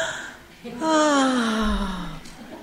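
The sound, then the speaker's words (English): A group taking a deep breath together: a long, audible voiced exhale that slides steadily downward in pitch over about a second and a half, following a quieter intake. “So everybody take a deep breath together.”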